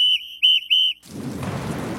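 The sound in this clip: Rain falls as a steady, broad hiss that starts suddenly and keeps going. Before it begins, a short, high whistle-like tone sounds in a few pulses.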